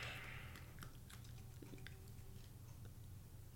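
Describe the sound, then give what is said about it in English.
Someone takes a small bite of food and chews. The crisp clicks and soft crunches are faint, with no talking. “I'm taking a small bite.”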